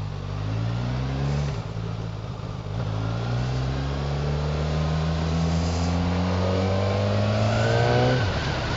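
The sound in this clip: A motorbike with a push-button easy start pulls away and accelerates, its loud engine note climbing steadily in pitch, dipping briefly at gear changes, then rising again in one long sustained run without talk.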